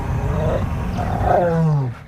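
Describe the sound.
Wild lions roar in a deep, rumbling, harmonic call that swells and then slides lower in pitch before breaking off abruptly.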